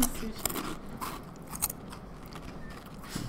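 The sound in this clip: Crunchy bites into a seaweed sushi chip: a few crisp, brittle cracks stand out over a faint, noisy background with soft chewing texture between them.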